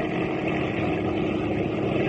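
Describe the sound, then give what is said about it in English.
An airplane taking off into the wind makes a loud, steady engine roar that holds at an even level, a dense droning rumble with no break. “Are we off the ground yet? Look over the side. The ground is rushing under us, but I can't see the wheels. Are we off the ground? Oh, we are. In the air. I never know it. Isn't it smooth riding now?”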